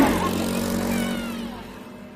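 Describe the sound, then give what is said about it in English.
Quad bikes tear past with a steady, buzzing engine drone that holds a constant tone and slowly fades over about two seconds. “As Richie and his friends tear past on their quad bikes”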